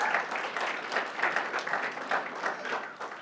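Steady audience applause at a church service, honoring a pastor's wife on their 28th wedding anniversary. A dense, even wash of many clapping hands runs the whole time with no voices over it.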